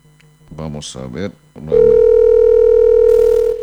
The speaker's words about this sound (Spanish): Ahí entrando la llamada